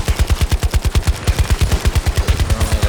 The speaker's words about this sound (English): Alright, I'm gonna take out that vehicle. Just give me a second. Oh, hip firing. M60.